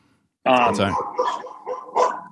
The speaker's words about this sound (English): Wait, so sorry about my dogs.